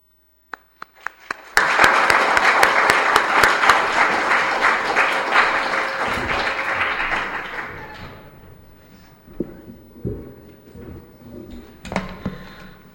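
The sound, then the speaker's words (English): Audience applause welcomes a poet to the stage, swelling quickly into a steady wash of clapping that holds for several seconds, then thins out and fades, with a few scattered thumps afterward. “And so I'd like to bring Tamba up first, and so if you give him a welcome.”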